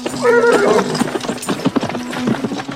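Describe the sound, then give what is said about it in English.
A horse gallops in a 1984 sword-and-sorcery film scene. Many fast hoof beats pound over a steady rumble, and a short whinny rises near the start. The whole passage is loud and busy. “So the next thing she does, David, is this galloping, running spears with her horse.”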